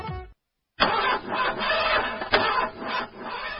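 A car engine cranks without catching because of a weak battery, making a steady, rasping, chugging whir that pulses unevenly for a few seconds after a brief pause.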